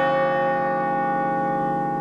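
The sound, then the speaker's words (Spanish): A hand-rung bell sounds alone with steady, sustained metallic ringing, rich in bright overtones, holding loud and even through the whole stretch without talk. “Todo esto se cierra con un campanazo que ya lo hago en 3, 2, 1 y lo hice.”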